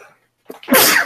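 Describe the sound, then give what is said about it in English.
A single human sneeze: a faint breathy intake, then a loud explosive burst that ends the brief moment. “I'm about to sneeze here.”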